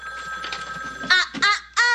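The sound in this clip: A telephone rings with a fairly loud electronic tone, a steady ring followed by a few short, sharper bursts.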